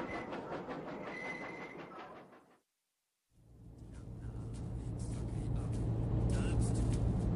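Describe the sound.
A train pulling into a station gives a heavy, rumbling roll with clickety-clack. The sound drops to a brief silence partway through, then returns as a steady, louder rumble.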